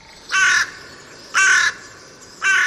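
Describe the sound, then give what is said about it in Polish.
Carrion crow cawing: three loud, harsh, nasal caws come at an even, unhurried pace over a low background hiss. “Trudno w to uwierzyć, ale wrona jest ptakiem śpiewającym.”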